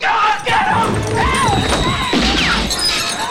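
A crash with shattering as a person stumbles against a table in a saloon, the breaking sounds buried in a loud, dense, continuous backdrop.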